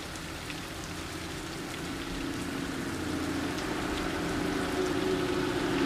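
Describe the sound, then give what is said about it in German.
Rain drums steadily on a metal roof on a night, a dense, even patter of drops at a moderate, constant level that swells slightly toward the end, with no voices. “Der Regen trommelte auf das Metalldach.”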